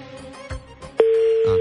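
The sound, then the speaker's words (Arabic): Telephone ringback tone of an unanswered call to a radio show caller. After a short stretch of music, a single steady, loud tone begins and holds to the end. “طيب اوكي هذه سابع رنه دقينا عليك”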